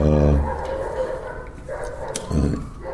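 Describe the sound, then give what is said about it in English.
Dogs barking in the background in Budapest, a few muffled barks under a man talking steadily in the foreground. “probably you're all familiar with the dogs in the background by now when I'm here in Budapest as well.”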